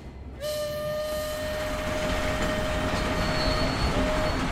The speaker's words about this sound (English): His Tyrrhenium train is on the tracks, the greatest machine in the crumbling sands of Nos